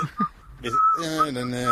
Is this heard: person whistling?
yes